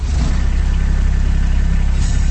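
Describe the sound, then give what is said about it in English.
A Kubota RTV utility vehicle engine idles with a steady, loud, low rumble that holds evenly throughout without revving. “That's the sound of a Kubota RTV utility vehicle.”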